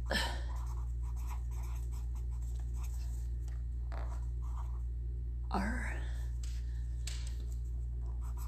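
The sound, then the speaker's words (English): A marker writes a note in several short scratchy, squeaky strokes with pauses between them, over a steady low hum. “Where's my marker here? Because I want to know that. Hold on. I'm very serious. Let me write this down.”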